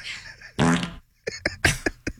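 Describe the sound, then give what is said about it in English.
A loud, buzzy fart blasts out in one long burst, then a few shorter sputtering bursts follow. “Stop it. Enough. So much with the farting.”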